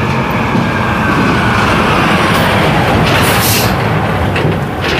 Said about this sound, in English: goodness gracious, that's a noisy truck.